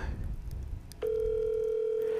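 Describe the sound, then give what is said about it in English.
A telephone ringback tone on an outgoing call: after about a second of faint background noise, a steady single-pitched electronic tone starts and holds unbroken to the end. “Is she gonna pick up the phone? Let me see if she pick up the phone.”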